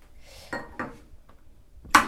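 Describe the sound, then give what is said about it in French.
An egg being cracked into a small cup for poaching. A few sharp, dry taps and cracks sound against near silence, and the last one is the loudest. “Tu casses l'œuf dans la tasse.”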